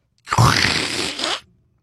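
Adhesive tape pulled off the roll as it is wrapped around a person's head: one harsh, rasping tearing screech of about a second, heard alone and stopping abruptly.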